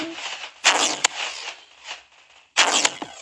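Gunshots ring out in a Roblox video game, a few sharp cracking shots in short clusters separated by quieter gaps, each with a brief noisy tail.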